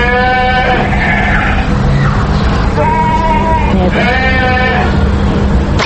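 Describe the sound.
Livestock calls from animals kept in sheds outside a five-storey apartment building, with a few drawn-out, wavering bleat-like cries rising over continuous background noise.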